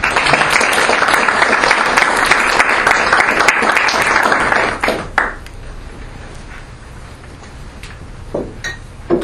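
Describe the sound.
Audience applause welcoming Nick, a guest speaker at a morning watershed event: dense clapping for about five seconds that quickly dies away, leaving a quieter room with a few scattered taps and clinks.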